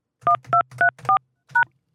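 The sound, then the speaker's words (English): Telephone keypad tones entering a voicemail PIN: five short, clear touch-tone beeps, the first four in quick, even succession, then a brief pause before the fifth, with no voices. “To access your voicemail, please enter your PIN, followed by the pound key.”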